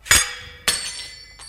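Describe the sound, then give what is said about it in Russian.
Glass goblet holding a poisoned drink breaking: two sharp, bright glassy crashes with ringing tails, followed by a faint third clink. “если бы я не разбил этот бокал с отравленным напитком миледи”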